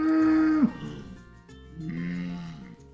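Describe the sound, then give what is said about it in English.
Lowing from small traditional-breed cattle on a working farm: a loud, drawn-out call that dips at its end, then a second, softer and longer call. “Really nice traditional breed. They're really small cattle, actually.”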